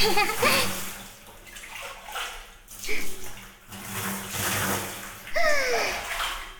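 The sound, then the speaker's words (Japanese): Hot spring water is poured over the body before bathing, a rushing, splashing pour that comes in a few surges with short pauses between them. A voice is briefly heard alongside the water. “掛け湯をしてサクッと入っちゃいましょう。”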